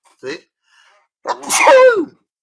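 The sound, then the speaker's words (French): A single loud human sneeze bursts out for nearly a second, preceded by a short, quieter sound and a faint murmur, with no talk. “un éternuement en direct, les amis, ça fait plaisir.”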